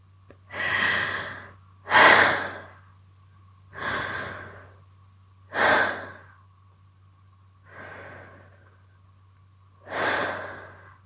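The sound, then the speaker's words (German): Three slow, deep breaths drawn into the belly, heard as six broad, airy swells of inhaling and exhaling spaced a couple of seconds apart, over a steady low hum, with no talking. “Mach deine Augen jetzt zu und atme dreimal ganz tief in deinen Bauch hinein.”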